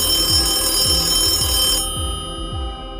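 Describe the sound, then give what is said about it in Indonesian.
A telephone rings with a steady tone and a regular pulsing rhythm. Its high bright part cuts off partway through while lower pulses continue. “Keesokan harinya, lewat tengah hari, Madam Pinot ditelepon orang lagi.”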